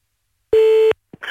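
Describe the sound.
A telephone tone as a prank call is placed: one steady mid-pitched beep held for under half a second, followed by a short click and a burst of line noise.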